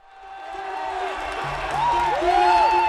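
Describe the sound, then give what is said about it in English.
An indoor track crowd cheers an Oregon runner finishing a record 5,000-meter race, the roar building steadily in volume with rising whoops and whistles. “The fans cheered Oregon's Galen Rupp like he was a rock star as he finished the fastest 5,000-meter race ever run by an American on an indoor track.”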